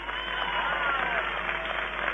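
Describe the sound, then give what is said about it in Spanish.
Crowd applause greets a speech from the stage at a street march rally for a law. Sustained, dense clapping runs steadily through the whole stretch with a muffled, narrow-band tone. “Fuerte el aplauso, compañeras y compañeros, para saludar la palabra de Estela de Carlotto.”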